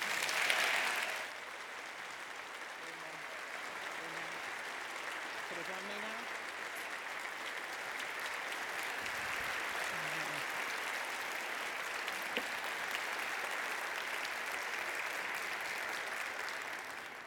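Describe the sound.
An audience applauds to welcome their bishop at a worship service, with long, sustained clapping that holds a steady, full level from start to finish.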